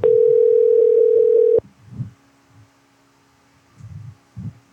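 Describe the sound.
A telephone ringback tone sounds while calling a pest control company: one steady mid-pitched tone lasts about a second and a half and then stops, followed by a few faint low thumps in near silence.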